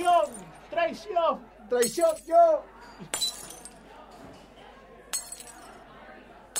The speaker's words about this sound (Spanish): Faltó romper esta. Son de vidrio. Paren, no rompan más cosas que después las tengo que pagar todas.